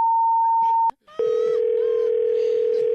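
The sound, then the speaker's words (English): A telephone dial tone sounds after a call is hung up. A steady higher tone is cut by a click and a brief pause, then a continuous lower, unwavering tone runs loudly to the end. “I am hanging up right now.”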